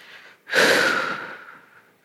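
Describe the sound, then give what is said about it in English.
A deep breath during a guided yoga and stretching session. A faint, brief intake is followed by a long, loud, airy exhale that gradually fades away, with no other sound. “A deep breath in, and then a deep breath out.”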